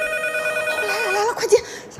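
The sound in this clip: A telephone ringing with a steady electronic trill that holds for over a second, then gives way to a voice near the end.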